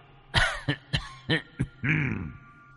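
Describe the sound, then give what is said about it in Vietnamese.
Violent coughing from an old man outside a door: six harsh bursts in quick succession, the last a longer, strained, rasping cough. “ở ngoài cửa truyền đến âm thanh ho sù sụ, là ho rất kịch liệt.”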